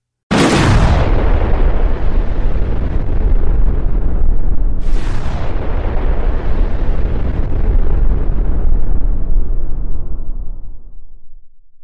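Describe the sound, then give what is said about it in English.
A massive explosion blast from a catastrophic impact on Earth: two loud booms about five seconds apart, each trailing into a long, roaring low rumble that fades out at the end. “It explodes with a blast that releases 2 million times more energy than the largest nuclear bomb ever exploded.”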